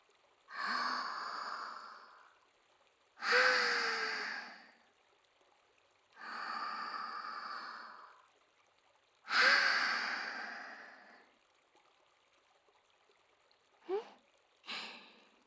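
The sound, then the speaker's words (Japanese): Slow, deep breaths in and out, with four long airy breaths separated by pauses and then two shorter breaths at the end. The soft, breathy hissing is heard alone, with no talk. “もう一度深呼吸してみましょうか。”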